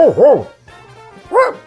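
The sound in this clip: A man imitates a dog barking with his voice, giving a quick pair of loud, yelping barks, then a pause with a faint low hum, then another bark.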